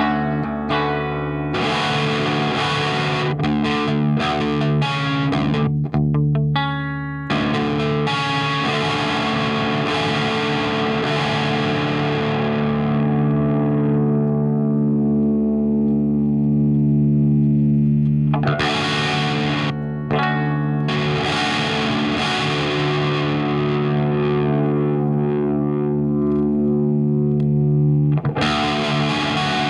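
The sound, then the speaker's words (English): Electric guitar played through overdrive and other effects with plenty of drive, alone and with no voices. Sustained, distorted chords ring out and slowly fade, then loud strummed playing starts again. “I'll check to see if it sounds tonally similar to the way the guitar just sounds on its own.”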